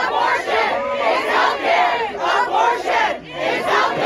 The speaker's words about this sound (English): That was the sound of protesters on Monday night gathered on the steps of the Supreme Court in D.C.